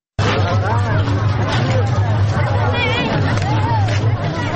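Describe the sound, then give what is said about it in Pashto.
Crowd of festival-goers at a traditional Eid fair in Tarinkot city, Afghanistan: dense, loud, continuous babble of many voices that starts abruptly and holds steady, with a low steady hum underneath. “دا شور او زوار په ترینکوټ شار کې د میلیانو دی، نه د موټرو.”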